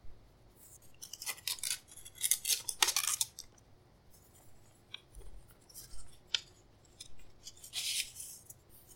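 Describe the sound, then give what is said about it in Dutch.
An envelope holding a photo being opened: crinkly paper rustles and scraping bursts, busiest early on, with quiet gaps and a last rustle near the end. “Oh, dit is denk ik de envelop met de foto, denk ik, hè?”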